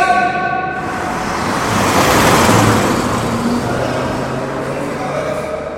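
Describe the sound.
A car speeds toward a person on foot, its broad engine and road roar swelling to a loud peak around the middle and then easing off slightly while staying steady to the end.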